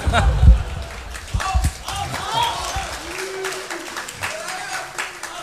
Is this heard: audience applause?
yes